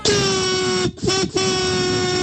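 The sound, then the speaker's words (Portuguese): Car horns honk in the street during a honking protest. The blare is loud, sustained and harmonic, broken by two short gaps. “Olha a galera buzinando que nem doido, cara.”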